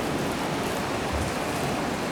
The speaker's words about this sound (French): le ressac des vagues varie selon l'exposition des récifs, la vitesse du vent.